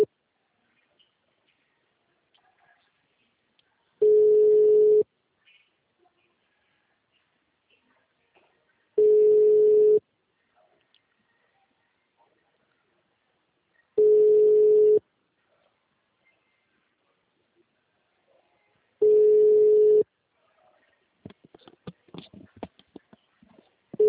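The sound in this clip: A telephone ringback tone plays on an outgoing call: four evenly spaced one-second beeps at a steady mid pitch, separated by several seconds of silence, with a faint burst of noise at the end.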